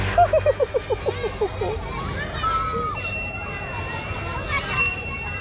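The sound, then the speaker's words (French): A small bell rings a rapid trill of quick, bright strikes to end playground recess at a school, followed by a busy hubbub of children's voices and play. “La clochette vient de sonner. La récréation est terminée.”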